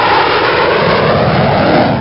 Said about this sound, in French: ancien pilote de F1, aujourd'hui de ce Mirage 2000 biplace, à bord duquel vous vous trouvez.